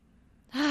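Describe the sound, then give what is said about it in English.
A single deep, sharp inhale comes abruptly after near-silence, breathy and fairly loud, and is cut off at the end. “So let's breathe in what was in alignment for us this week and out everything that was out of alignment for us this week.”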